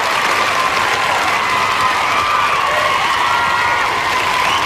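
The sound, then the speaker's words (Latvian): Steady applause and cheering from a Latvian travel show audience, many hands clapping densely and evenly at full volume throughout, with some crowd voices mixed in and no one speaking over it. “Mums vajag aplausus labiem cilvēkiem, ne? Paldies labiem cilvēkiem!”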